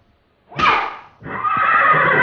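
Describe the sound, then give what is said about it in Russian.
A horse rears with a loud, sharp whinny, then a steady, noisy rushing sound continues to the end as it gallops back toward the stable. “Лошадь взвивается на дыбы и полным карьером несется назад в конюшню.”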